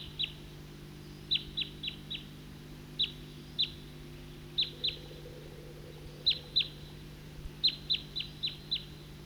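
A flock of birds gives many short, high chirping calls of a single call type, arriving in quick clusters of two to four over a faint, steady low hum.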